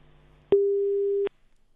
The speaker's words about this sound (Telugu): Yes call అయితే cut అయిపోయినట్టుంది.